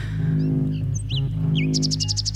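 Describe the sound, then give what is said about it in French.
Nightingale song over low, steady musical tones: scattered high chirps and whistled notes, ending in a rapid series of bright, repeated high notes. “là, avec ce rossignol, moi, ça me met ici, là, dans cette ambiance.”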